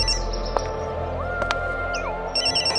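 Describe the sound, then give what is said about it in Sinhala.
A mobile phone rings with a chirpy, bird-like electronic tone: short bright blips, then a held tone that slides up, holds steady and dips back down, over a low steady hum. “සූර්යබානුගේ phone එක රින් වෙනවා.”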